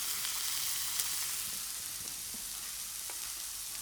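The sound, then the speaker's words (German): Frying in a pan as a still-raw piece is browned on its other side: a steady, faint sizzling hiss runs throughout, dotted with a few tiny crackles and no talk. “Jetzt versuche ich ihn gleichmäßig auf der Hinterseite auch zu braten.”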